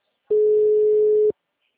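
Telephone call tone after dialing a client: a single steady mid-pitched beep lasting about a second, starting and stopping abruptly with silence on either side.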